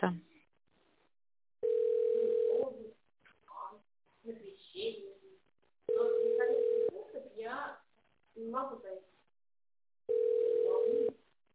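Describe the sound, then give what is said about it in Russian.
A telephone ringback tone sounds while a call waits to be answered: three steady, low-pitched tone pulses, each about a second long, separated by pauses in which people talk. “Продолжается попытка дозвониться до абонента, который пока что не успел ответить на ваш вызов.”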